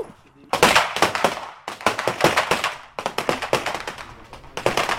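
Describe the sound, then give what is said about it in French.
Rapid rifle gunshots, soldiers' service rifles firing in several quick bursts of sharp, loud cracks with brief gaps between the bursts. “Oui, ils vont tirer. Attention, les gars.”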